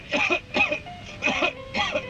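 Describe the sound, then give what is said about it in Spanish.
Someone coughs in several harsh, loud bursts, each a quick double hack, separated by short pauses. “Toma Seneguina y déjate de toser.”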